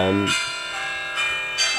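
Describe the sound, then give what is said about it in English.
A gong is struck a few times, each hit giving a bright metallic ring with many sustained overtones that carry on between strikes. “Loving the new gong. That's your cue to wrap up, Dicko”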